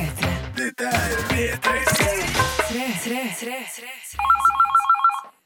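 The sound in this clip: A telephone ringing, a rapid, regular electronic trill that comes in near the end after a stretch of voices and other sounds, loud and clear once it starts.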